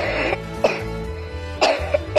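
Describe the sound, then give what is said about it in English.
A person coughs into their elbow, giving a few muffled, throaty coughs spaced irregularly over a low steady background, with no talking. “Do you also cough into your elbow?”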